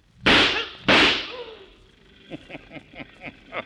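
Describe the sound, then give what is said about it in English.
Two loud, sharp gunshots crack in a radio drama, about half a second apart, each with a short decaying tail, followed by a run of faint, rhythmic knocks. “It was a guard. It's a corpse now. Oh, that sure was good shooting”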